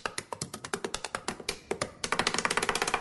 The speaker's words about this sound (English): Right up there with the woman who taps her pen like she's doing a drum solo at a sold-out arena.